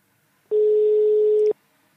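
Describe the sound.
A telephone ringback tone while calling someone: one steady beep of about a second at a constant mid pitch, heard alone between stretches of silence.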